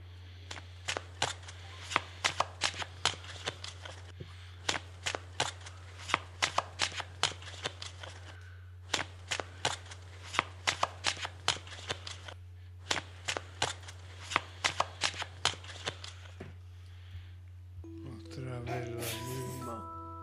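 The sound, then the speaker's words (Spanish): Playing cards are shuffled by a fortune teller in several runs of rapid, crisp riffling clicks separated by short pauses. A steady low hum sits underneath, and a brief tonal sound closes the sequence. “Las mismas cartas, y ahora sí las has barajeado”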